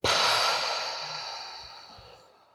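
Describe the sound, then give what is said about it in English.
A single long, airy breath during a guided breathing exercise: a soft rush of air that starts strong and fades gradually over about two and a half seconds, with no talk over it. “breathe in through the heart. Inhale. Exhale.”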